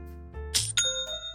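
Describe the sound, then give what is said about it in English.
Online store sale notification chime: a few bright, clear bell-like tones ring out one after another, each with a short ringing tail, alone and fairly loud. “That's the sound of another sale on Shopify, the all-in-one commerce platform”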